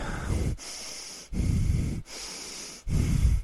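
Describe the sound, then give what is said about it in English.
A man's voice imitates heavy, labored breathing. Three loud, rasping exhalations alternate with quieter, airy inhalations in a slow, steady rhythm. “he starts breathing like this.”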